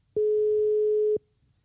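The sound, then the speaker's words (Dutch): A telephone tone sounds while a call is being placed: one steady, mid-pitched electronic beep lasting about a second, alone and cutting off cleanly into quiet. “Dan gaan we nu eerst uh, Charissa even, bellen.”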